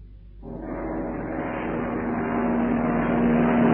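An airplane engine in flight, approaching to land as the weather closes in: a sustained droning roar swells in just under half a second and grows gradually louder, with a steady low tone running through it.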